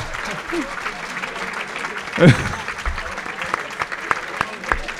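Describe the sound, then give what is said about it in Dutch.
Applause from an audience at a prize presentation: dense, steady clapping that runs through the whole stretch at an even level, with faint voices mixed in. “Applaus. applaus en hoongelach.”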